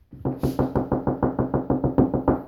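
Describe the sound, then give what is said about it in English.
Knocking sounds in a quick, even rhythm: many firm raps follow one another at a steady pace, with no pauses and no voices. “And there was a knocking. And sometimes he knocks for 50 years.”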